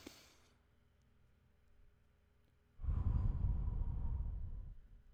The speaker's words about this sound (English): let's take a deep breath right now. Let's take a deep breath.